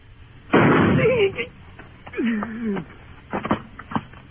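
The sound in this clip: A gunshot in a Gunsmoke radio western drama: one sharp, loud bang, followed by voices talking.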